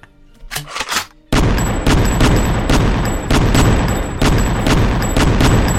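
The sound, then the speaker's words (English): Shotgun gunfire in a video game: after a quieter opening, a loud, dense run of repeated sharp blasts over a continuous roaring din. “We're going all Midwest now, getting the shotguns out. It's been a while since I last fired this.”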